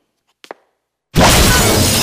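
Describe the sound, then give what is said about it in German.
Conservatory windows shatter in a sudden loud burst of breaking glass that crashes on steadily to the end, after a brief near-silence broken by two faint short knocks. “Die Fenster des Wintergartens explodierten.”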